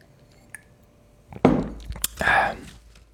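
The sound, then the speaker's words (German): A person taking a sip of a drink: a faint click, then a few short, wet slurping and gulping sounds close together. “Naja, ich trinke mal einen Schluck.”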